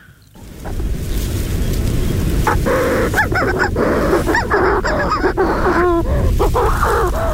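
Shrill cries of an agile, fast-flying bird, several sharp repeated calls cutting through a steady rushing background noise.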